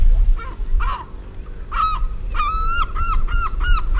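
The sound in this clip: A gull gives its laughing call as a run of nasal, honking notes. A few spaced calls come first, then a quicker burst of repeated notes over a low background rumble.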